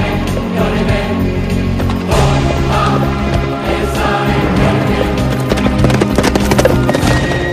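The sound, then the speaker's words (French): Horse hooves galloping along a road, carrying a rider in armour; a loud, dense, continuous run of rapid clip-clop hoofbeats fills the whole clip without a break. “Imaginez ce cavalier revêtu de sa cuirasse, galoper le long de nos routes”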